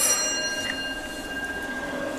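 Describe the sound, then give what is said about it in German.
A doorbell rings at a house, a bright sustained ringing tone that holds through the whole short clip over steady background noise. “bei Christine und jetzt klingeln wir mal hier”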